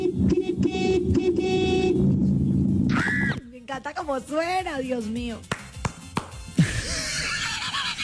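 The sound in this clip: A car horn sounds in a buzzy, sustained blast lasting about two seconds, followed by people talking.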